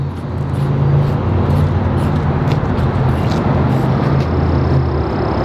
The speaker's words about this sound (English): Now, if you don't know what that is a brand new Toyota 4Runner.